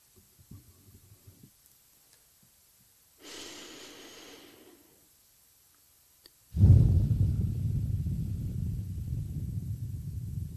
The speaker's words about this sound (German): Einatmen und ausatmen.